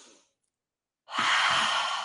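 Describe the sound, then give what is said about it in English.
A deep clearing breath taken during a guided breathing exercise: after a brief quiet, a loud, airy, sustained breath lasts about a second. “So can I share something with you before you breathe? A clearing breath. So everyone just breathe in.”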